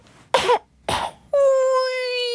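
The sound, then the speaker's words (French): Two short, harsh coughs burst out one after the other, followed by a steady, sustained tonal note that holds to the end. “Allongé sur son lit, les yeux fermés, il tousse. Il tousse tellement”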